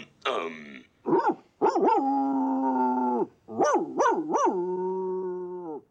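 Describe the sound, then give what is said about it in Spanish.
Dog howling, yelping and whining: a rough opening bark, a short yelp, then drawn-out howls broken by quick, rising yelps, all loud and clear with no talk. “Un aullido largo, dos cortos, un gemido y un guau.”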